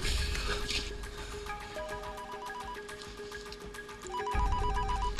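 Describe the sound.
A telephone rings with an incoming call, a repeating electronic ring pattern of pulsed, beeping tones. The ringing is fairly loud and plays without any talk.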